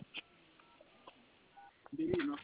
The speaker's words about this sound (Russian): давайте я вас сейчас соединю с залом